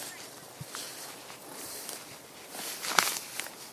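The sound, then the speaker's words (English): Footsteps walking through brambles, with crunchy, rustling steps and a few sharper snaps, faint and irregular and with no voices. “I'm walking through like the brambles and stuff here. Don't know what this is. I like the sound of walking.”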